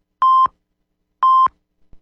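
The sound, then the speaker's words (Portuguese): Radio time-signal pips marking the close of a network broadcast: two short, identical, mid-pitched pure electronic beeps about one second apart, each clean and steady, with silence between them. “Atenção para o top de 5 segundos para o encerramento da rede.”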